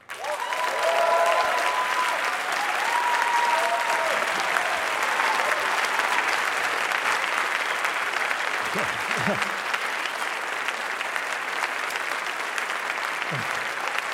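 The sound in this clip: Sustained applause from an audience after a talk on ending the war on drugs, thick and even clapping that carries on for over ten seconds, with a voice briefly audible near the start.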